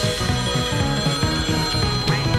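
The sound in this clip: Telephone ringing with an incoming call, a loud electronic ring pulsing in rapid, regular bursts that continue throughout, with no talk.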